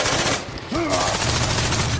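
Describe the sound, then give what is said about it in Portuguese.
Gunfire sound effect from a battle scene in which a soldier fires at other soldiers among pine trees: dense, rapid bursts merge into a loud, continuous roar, with a brief dip partway through. “mirou em alguns soldados e atirou.”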